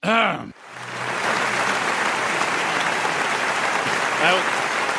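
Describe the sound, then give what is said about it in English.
An audience claps in a sustained, dense wash of applause that keeps steady throughout. A voice is heard briefly just before the clapping begins and again near the end. “Can we please stop the clapping?”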